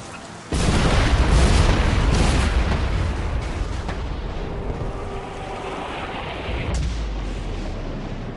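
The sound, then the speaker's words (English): Rumbling, explosive swells as the landscape transforms and takes on new colors in the Prince of Persia video game: a sudden loud onset, then dense roaring noise that slowly eases, with a fresh surge near the end. “These sounds we're playing at the beginning are all the transformation sounds as the landscape takes on new colors and dimensions.”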